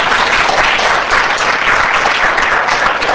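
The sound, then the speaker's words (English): Audience applause for a Harvard Law School professor introduced as moderator at a conference: loud, dense, continuous clapping holds steady for the whole clip with no break. “So let's give him a big hand.”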